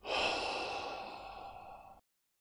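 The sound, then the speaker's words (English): A single deep breath out, airy and sighing, swells quickly and then tapers over about two seconds before stopping abruptly, heard alone and quietly. “Maybe another breath in through the nostrils and a nice deep breath out.”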